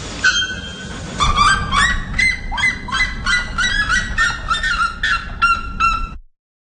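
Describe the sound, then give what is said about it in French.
Loud, harsh calls of two birds, one calling after the other: many rapid, rhythmic honking notes in stuttering bursts that run for about six seconds. “J'ai un extrait pour vous, niveau normal, pas niveau marteau-piqueur, des deux oiseaux l'un après l'autre.”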